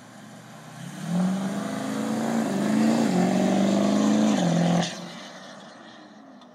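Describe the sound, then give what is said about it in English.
A turbocharged car roars through a boosted four-wheel-drive launch on an aftermarket tune. The engine note climbs in small steps for several seconds, loud and steady, then cuts off abruptly. “boosted launch Spartan tune. All right, let's four wheel drive.”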